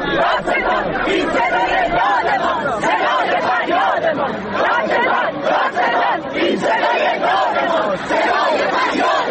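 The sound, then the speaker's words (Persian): Crowd of protesters in Isfahan chanting slogans about an acid attack case: many voices shouting in unison with a steady, driving rhythm, loud and continuous with a busy babble underneath. “بله، صدای شعار مردم اصفهان رو شنیدید در مورد پرونده اسید پاشی که”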